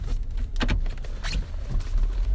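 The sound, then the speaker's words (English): A garage door closing, heard as a low motor rumble with a few clicks and rattles scattered through the mechanical drone. “Wait, I'm not even sure how to close the garage. Okay, doing this.”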